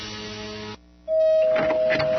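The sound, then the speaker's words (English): A Valentino's delivery truck drives down a street, a steady motor-like rumble with a thin sustained whine running over it, following a short stretch of tonal sound and a brief quieter gap. “Move out of the way. Is that a Valentino's delivery truck going down the street?”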